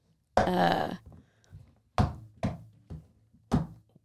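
Dull knocks and thunks from an airtight container of jalapeño poppers being worked open: one longer harsh scrape first, then four sharp, separate taps at uneven intervals.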